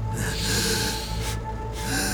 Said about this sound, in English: Breathe in.